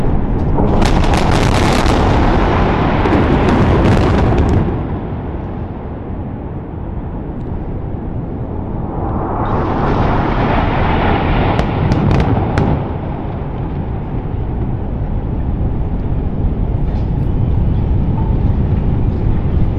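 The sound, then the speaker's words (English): Bombing explosions in the Gaza Strip roar as a dense, loud rumble with repeated sharp bursts. A quieter stretch near the middle gives way to another surge of booming that lasts to the end. “Okay, so here are some of the clips of some of the most recent bombings of the Gaza Strip.”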